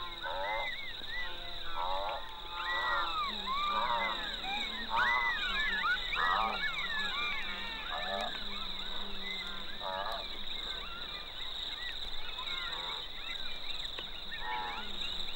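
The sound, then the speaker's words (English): Golden jackal family groups set up a sunset chorus: many overlapping wavering yelps and howls that rise and fall in pitch, sounding continuously and fairly loud throughout. “there's a kind of sunset chorus set up by the golden jackals. Suddenly they all start. Suddenly in groups round their earths they start calling, and other family groups, quite a distance away round another earth, starts calling back.”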